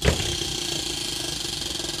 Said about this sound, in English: Okay, let's have a crack. A spin of the wheel. Here we go.